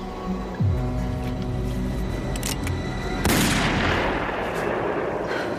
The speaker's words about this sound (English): A couple, Melinda and Kellen, Delaney Tabron and Josh McKenzie, lead a peaceful life there, scaring off roaming marauders with warning shots. How close? Very.